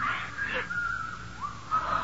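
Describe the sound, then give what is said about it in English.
Eerie, wavering whistling, a thin tone that slides up and down through a few phrases, faint and alone in a quiet setting. “There's that whistling again.”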